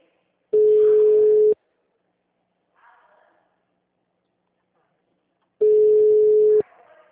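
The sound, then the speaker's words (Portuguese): Ringback tone of an outgoing phone call to a client: two steady, identical one-second tones about five seconds apart, separated by near silence with only a faint murmur between them. “Tô ligando pro cliente, tá?”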